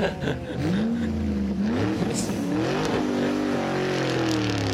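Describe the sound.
A car pulls away from the roadside, its engine revving in a loud, steady drone whose pitch wavers up and down as it accelerates.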